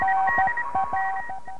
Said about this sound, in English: let's begin to learn a fascinating new language called the International Morse Code.